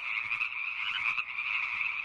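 Frogs croaking in a dense, continuous chorus, a steady high-pitched buzzing trill with no pauses, heard alone.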